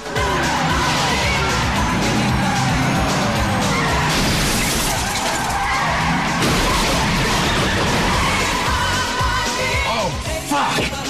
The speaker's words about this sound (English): The police cars skid straight into the back of a cement mixer.